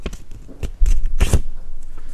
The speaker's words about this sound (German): Jetzt wird hier live der Zettel gefaltet.